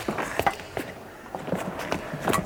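Footsteps of people climbing stairs in a radio drama: many uneven, muffled thuds and scuffs at a walking pace.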